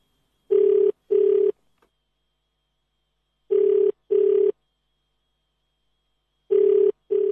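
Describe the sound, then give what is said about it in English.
A telephone ringback tone sounds as a call fails to get through: three cycles of paired short rings with silent gaps between them. The last pair is cut off at the end. “The number you have dialed is not available at present. And so we can't get through to her.”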